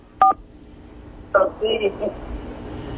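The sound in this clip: Touch-tone beeps as a phone number is dialed on a line with a poor signal: a few short, sharp tone bursts separated by a pause, with voices nearby.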